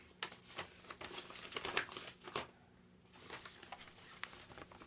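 Bubble wrap crinkles faintly as a gift is unwrapped, with many quick crackling bursts and rustles in an uneven rhythm, a short lull, then more soft crinkling.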